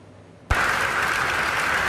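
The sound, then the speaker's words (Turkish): Applause from scientists at a pancreatic cancer drug meeting in Istanbul bursts in abruptly after a brief quiet moment. It becomes a dense, steady wash of clapping that holds at an even level to the end. “Bu ay tıp dünyasında çığır açacak pankreas kanseri ilacının sonuçlarını bilim insanlarının dakikalarca alkışladığı bu görüntülerle öğrendik.”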